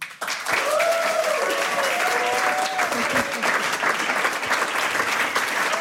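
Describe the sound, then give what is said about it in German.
An audience applauding to welcome musicians onto the stage at a live music event: dense, loud clapping that holds steady throughout. “einen großen Applaus, a warm welcome für Mocky hier gemeinsam mit Charlotte Kalas und Dee Shaheen.”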